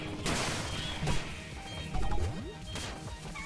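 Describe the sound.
A bomb explodes in the video game Pizza Tower with a few sharp, noisy crashing bursts amid busy, cluttered game sound effects.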